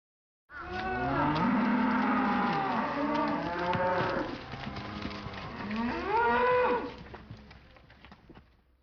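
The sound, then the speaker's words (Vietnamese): A cow moos in one long, drawn-out call with rich, wavering harmonics. The sound is loud, dips briefly in the middle, then swells again before trailing off into quiet. “Đây là tiếng bò kêu, trong tiếng Nhật được diễn tả bằng từ mô mô.”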